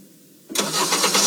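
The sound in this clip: After a near-quiet moment, a car engine catches abruptly and settles into a steady, full-bodied idle.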